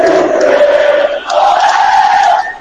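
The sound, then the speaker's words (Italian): Juventus fans roar and chant in a football stadium in Verona after their team scores to go 3-2 up, a loud sustained crowd cheer in two swells that fades at the end. “Esultano ovviamente i tifosi bianconeri presenti a Verona.”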